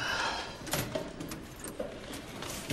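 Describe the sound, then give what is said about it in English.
Keys jingle and small metallic clicks and rattles sound as a man checks the mail in his building, scattered light taps over a faint, noisy background. “He lets himself into his building and goes to check the mail.”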